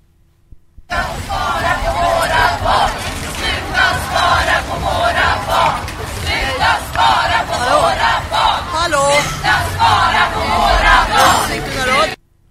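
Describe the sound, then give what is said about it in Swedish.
Demonstrators chanting slogans in unison as council members arrive for a municipal council meeting in Sigtuna, Sweden: a loud crowd repeating a rhythmic shouted chant in surging bursts, with voices layered together throughout. “visst är det Sigtuna Radio som spelar in talkörer från demonstranterna som mötte fullmäktigeledamöterna”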